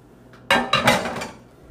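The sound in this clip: A cooking pan and dishes clatter in a few sharp, bright metallic clanks in quick succession, the ringing fading away after the last knock, with no talk.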